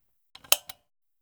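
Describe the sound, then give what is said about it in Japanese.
A light switch being clicked off: a few short, sharp clicks in quick succession, alone against silence. “電気消すわよ。”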